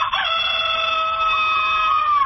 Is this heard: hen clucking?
yes